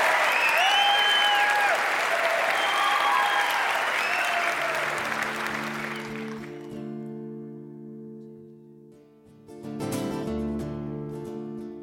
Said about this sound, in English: Give them a big hand.